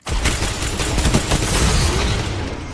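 Shotgun fire in a video game Control match: a loud, dense burst of shots and booming rumble that runs without a break for nearly three seconds, with no voices.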